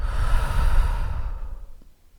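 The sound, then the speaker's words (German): A single deep breath, a long breathy rush of air that holds steady and then fades away, heard alone with no talking. “Atme tief ein und wieder aus.”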